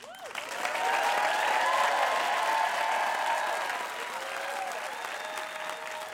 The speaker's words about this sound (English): After Burnell told this story in New Orleans, the audience gave him a standing ovation.